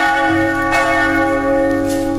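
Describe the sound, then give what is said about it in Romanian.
A bell rings with sustained, shimmering metallic tones that hang steadily throughout, refreshed by a couple of fresh strikes along the way. “Scuzați, ăsta e clopot.”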